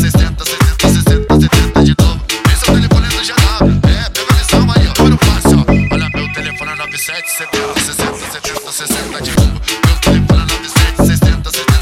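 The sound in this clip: A telephone ringtone melody repeats over a loud, steady pounding dance beat, with a held electronic tone sounding for a moment in the middle.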